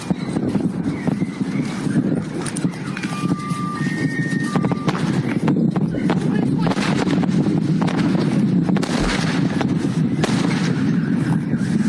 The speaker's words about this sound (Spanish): Ese es el sonido del meteorito en su caída hacia la Tierra. Esas son las ondas de choque que se abren paso